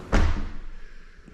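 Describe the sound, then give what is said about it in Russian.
A small door is shut with one solid thump, followed by a short, softly fading resonance and faint background noise. “Закрываю дверку.”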